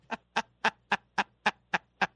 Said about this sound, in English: I'm going to jump in before you start squeezing the rubber chicken.